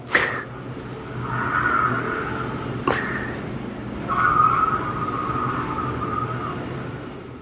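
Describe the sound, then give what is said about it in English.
A Porsche skids in a film scene, its tires letting out two drawn-out squeals over a constant engine rumble, with a sharp knock at the start and another between the squeals. “That car will be fucked. That's a Porsche.”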